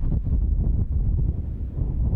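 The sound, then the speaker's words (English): Strong wind on a raw, stormy day in West Texas, a steady low roar and buffeting that fills the whole stretch with no pauses and no voices. “It's a raw and stormy day in West Texas”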